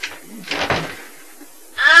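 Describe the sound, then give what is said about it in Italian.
A spaceship door opening after a landing: faint clattering, then a quiet pause, then a sudden loud hissing sweep with bright tonal streaks at the end. “Aspetta che apro la porta.”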